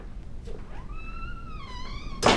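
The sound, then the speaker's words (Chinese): A door being shut: a single sharp thud lands near the end after a quiet stretch, with no voices. “把门关上。”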